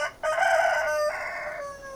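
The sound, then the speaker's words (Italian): An old rooster crows mournfully in one drawn-out call. The harmonic tone steps down in pitch partway through and trails off more quietly, heard alone. “Ma poi anche il vecchio gallo Gustavo Hahnemann era lì sulla colonna, accanto alla porta, e cantava tutto lamentoso.”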